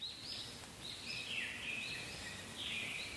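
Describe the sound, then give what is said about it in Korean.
Thin, high-pitched cheeping of five nestlings begging as a parent bird brings a beakful of earthworms to the nest, a faint continuous chorus of wavering calls. “지렁이를 잔뜩 물고 이제 옵니다. 자, 잔뜩 물고 왔죠. 다섯 마리 새끼 입에 골고루 밥 먹이느라 바쁩니다.”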